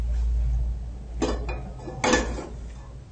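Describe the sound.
A frying pan is handled in a home kitchen during cooking, giving two brief metallic clanks and scrapes over a low background hum.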